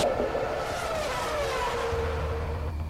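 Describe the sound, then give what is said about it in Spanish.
Formula 1 racing car engines roar in a continuous high, loud whine, with one tone sliding steadily lower as a car speeds past. “El rugir de los motores llega a juego limpio con la Fórmula 1 y más.”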